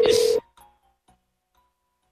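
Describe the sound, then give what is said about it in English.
One loud telephone keypad tone sounds as a number is dialed for a call, a steady beep of under half a second. It breaks off into near silence, with only a few faint, tiny clicks afterwards. “That's some solid dialing music.”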